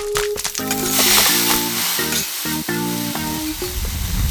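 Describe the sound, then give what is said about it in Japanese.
Pork, chopped cabbage and yakisoba noodles sizzle as they fry together, a loud, steady hiss that runs without a break through the whole clip. “豚肉を焼いて、刻んだキャベツ積んで、焼きそばを炒めます。”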